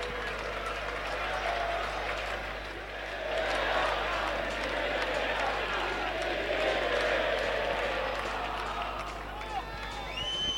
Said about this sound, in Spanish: El público que ya no aguanta más, es que ya no aguanta más. No es para menos el partidito que estamos viendo en la jornada de hoy.